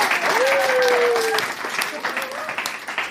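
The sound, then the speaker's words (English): An audience applauds after a science demonstration in which a bin bag filled with hot air takes off. Steady crowd clapping runs for about three seconds while a voice speaks over it. “She does deserve a clap for that. Come on, you miserable lot.”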